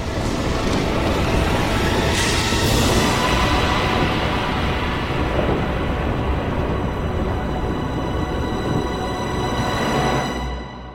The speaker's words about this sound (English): Cosmic thunder roars overhead